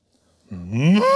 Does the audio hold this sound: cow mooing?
yes